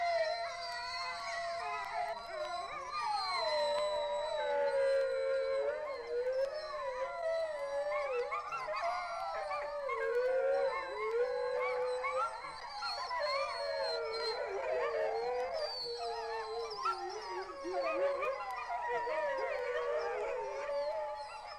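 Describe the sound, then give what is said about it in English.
Wolves, coyotes and wild dogs howl together in a canyon, many overlapping wavering howls and yips rising and falling in pitch as a continuous chorus for about twenty seconds, with no voices. “And sometimes, a full moon or a siren will start the entire canyon of animals calling. Wolves, coyotes, wild dogs, all join together in a wild chorus that sounds like this.”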